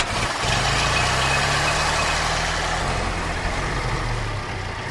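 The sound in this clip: An old hand-cranked engine runs steadily at idle, a loud continuous low rumble with a broad hiss layered over it that holds even for the whole stretch, with no voices.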